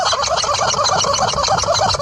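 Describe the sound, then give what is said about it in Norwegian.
A rubber chicken toy squawks as a horse shakes it intensely. The loud, dense honking squeals run on without a break for the whole stretch, with no voices. “Hesten går rolig og slentrende spurt over mens den rister høna intenst.”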